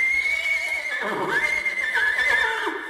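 A horse neighs in one long, high whinny that wavers up and down and trails off, loud and clear over a steady background hiss, with no talking.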